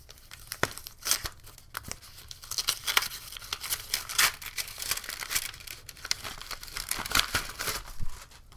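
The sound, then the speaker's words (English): Paper crinkles and tears as an unopened envelope is ripped open, a steady rustling run with several sharper tearing bursts throughout, moderately loud with no voices. “Receipts, receipts, receipts. Here's an unopened envelope.”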